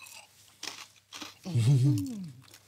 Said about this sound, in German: Ist natürlich knusprig, wie man unschwer hören kann.